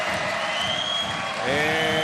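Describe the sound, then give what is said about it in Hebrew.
Crowd applause at a basketball game for forward Roman Sorkin after a block: a dense, steady patter of clapping with a man talking over it near the end. “כן, מוחאים לסוקין כפיים”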